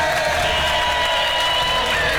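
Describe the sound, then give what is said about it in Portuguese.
Applause and cheering from a crowd played as a radio sound effect, a dense, steady wash of clapping and cheers that holds at an even level without a break. “Eu queria agora uma salva de palmas, uma festa daquelas, porque temos novo anunciante no Poder da Notícia.”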